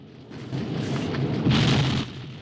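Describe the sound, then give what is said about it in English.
Explosion engulfing a tank in flames, a deep roaring rumble that swells in, surges to a louder, brighter blast past the midpoint, then drops away sharply. “They just get free as another explosion engulfs the tank in flames.”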